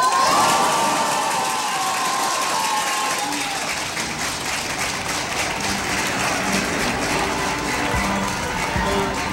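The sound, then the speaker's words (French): A crowd cheers, shouts and applauds in the city streets of Paris, celebrating the 1981 presidential election result: a loud, dense, continuous roar of many voices that stays steady throughout. “La capitale est en liesse. Dans les rues, les voitures klaxonnent.”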